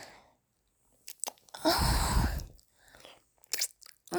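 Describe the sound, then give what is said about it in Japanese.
A sticky hand is licked, one long, wet, slurping lick in the middle, with a few faint smacking sounds before and after in otherwise quiet surroundings. “このベタベタのお手手を一回舐めます。”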